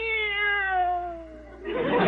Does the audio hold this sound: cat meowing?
yes